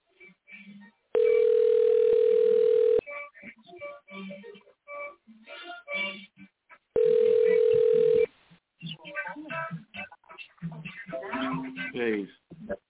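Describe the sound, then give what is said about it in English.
Telephone dial tone while a caller is dialed: two long, steady, fairly loud tones, each lasting a second or two, with a man talking between and after them. “I'm going to dial him up right now.”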